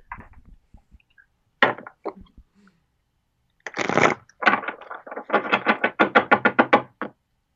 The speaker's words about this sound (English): Well, we ought to close here, but maybe would it make sense to pull a card for the Shakti Hour? Absolutely.